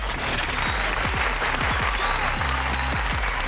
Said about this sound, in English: Yay! Give it up for Bobby Oliver!